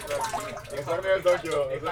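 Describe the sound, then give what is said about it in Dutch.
Running water trickles and splashes steadily throughout, with a voice murmuring alongside. “Echt een heel mooi geluid dit hoor. Ja, water.”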